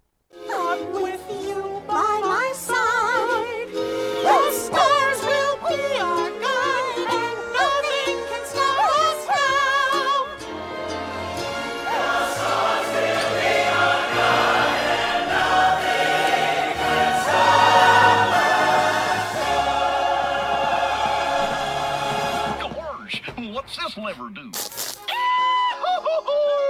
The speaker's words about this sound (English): in the final scene of the attraction, it's like this hyped up kind of larger crescendo version of the song